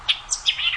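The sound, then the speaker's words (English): A white-eyed vireo sings a quick burst of high, sharp chirping notes in rapid succession, clear and moderately loud over a quiet background. “That's the song of the white-eyed vireo.”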